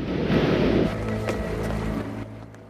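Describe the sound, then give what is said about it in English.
Churning water rushes past as a fishing boat cuts through it: a steady, dense wash of noise that holds fairly even before thinning out near the end. “The water churns as the fishing boat cuts through it.”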